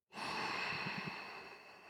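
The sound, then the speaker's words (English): A single deep breath is drawn slowly into the belly during a breathing exercise. The steady airy rush starts abruptly and tapers gently over about two seconds, with no talking. “And then instead, we're going to reverse it and we're going to breathe into the belly. So deep breath in.”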